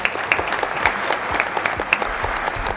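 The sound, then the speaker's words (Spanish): Loud audience applause, a dense, steady patter with sharp individual claps popping out, even in level from start to end. “Hacemos un aplauso para Isabel Díaz Ayuso desde aquí.”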